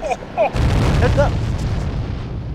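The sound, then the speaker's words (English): An explosion blasts open a mine, a sudden deep boom that swells into a long, loud rumbling roar, with brief voices just before and during the blast. “It's as simple as 3, 2, 1. Fire in the hole!”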